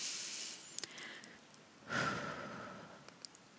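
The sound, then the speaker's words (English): A single deep breath drawn in as part of a guided relaxation exercise, soft and breathy, swelling briefly midway through an otherwise quiet stretch with a few faint ticks. “Take a nice deep breath in once more.”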